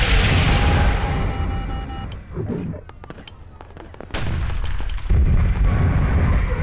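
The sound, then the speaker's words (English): A missile strike explosion in a battle scene: a loud, broad roaring blast, then a quieter stretch of sharp cracks and crackles, then a second heavy roar that lasts to the end. “Missile inbound!”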